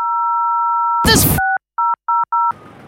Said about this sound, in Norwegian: Ring Viking redningstjeneste på 06000.